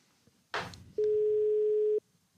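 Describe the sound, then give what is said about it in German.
A telephone call tone while a call is placed: a brief rustling burst, then a single steady, mid-pitched electronic tone that lasts about one second before cutting off. “wollen wir in Berlin anrufen bei Matthias Niederberger”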